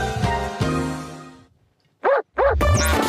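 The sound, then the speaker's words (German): A barking-dog ringtone: a sustained harmonic tone fades out, then after a short silence two sharp, evenly spaced barks ring out, followed by a further burst with a rising whistle-like sweep. “Sende Spacko 1 an 3x die 1 für Bello, den bellenden Hund.”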